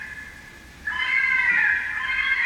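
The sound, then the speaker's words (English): A fisher screaming in the woods behind a house: after a quiet start, one harsh, sustained, high-pitched cry breaks in suddenly and stays loud until the end. “The sound that you're hearing, the screaming, this is the sound of the fisher cats in the woods behind my house.”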